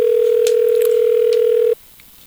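A telephone ringing on an outgoing call, heard as one steady, buzzing ringback tone that lasts nearly two seconds and then cuts off abruptly into near silence.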